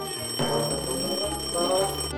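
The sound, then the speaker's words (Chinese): An alarm clock rings with a steady, shrill, high-pitched tone that holds unbroken for the whole stretch, moderately loud. “啊，闹钟也是钟啊，听了钟声就会把你的善性唤醒”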